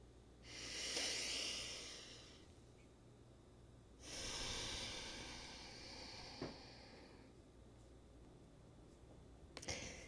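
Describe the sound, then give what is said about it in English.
Deep, slow breathing: two long, soft, airy breaths with a hissing quality, separated by a pause, followed by a few faint clicks near the end. “take a deep breath. I'll do it with you. Let's do it one more time.”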